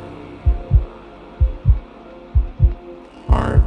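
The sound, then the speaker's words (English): A heartbeat thumps in four low, evenly spaced lub-dub pairs. The final pair is louder and broader than the others, and there is no other sound. “I can feel heartbeats. I can feel”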